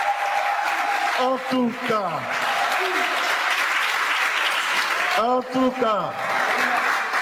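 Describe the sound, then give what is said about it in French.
Strong, continuous applause from an audience cheering a choir from Saint-Michel; a man speaks over the clapping twice. “On l'acclame très fort, la chorale, Saint-Michel la canche.”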